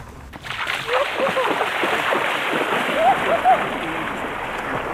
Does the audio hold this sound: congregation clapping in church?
no